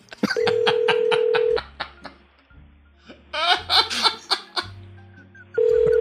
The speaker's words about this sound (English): All right, we're ringing.